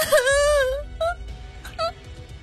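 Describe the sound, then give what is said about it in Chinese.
A girl bursts into loud crying on a raft at sea, a long wavering wail followed by a few short, choked sobbing bursts. “丽丽大哭了起来，但很快被坚强捂住嘴，压下了哭声。”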